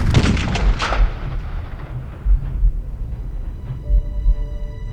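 Rifle shots fired inside a candlelit church with a marble floor: loud, booming reports at the start that trail into a long, low, rumbling decay, followed by a few softer thuds.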